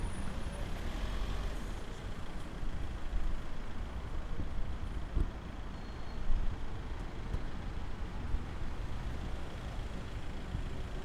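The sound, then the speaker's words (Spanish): Road traffic passes outside a theatre, with BMWs and similar cars going by: a steady low rumble of engines with no clearly separate passing events. “Y ya estoy afuera del teatro, viendo BMWs y carros de ese tipo.”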